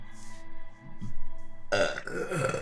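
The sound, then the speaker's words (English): A long, loud burp rumbles out, low and throaty, turning stronger and rougher toward its end. “I'm just gonna cut that burp out. Okay. That was an epic burp.”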